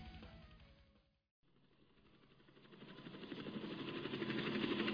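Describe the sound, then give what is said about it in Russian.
Chattering rotor blades of a captured helicopter heading in from the north make a rapid, rhythmic thumping. It drops out briefly, then returns and grows steadily louder. “Вдруг я услышал стрекот вертолетных лопастей.”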